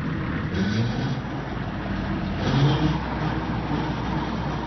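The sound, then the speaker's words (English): A tractor engine runs steadily, a rough, continuous mechanical rumble from a machine used to dig up rocks and plow, swelling slightly louder twice and then settling back. “the tractor to dig up rocks and plow”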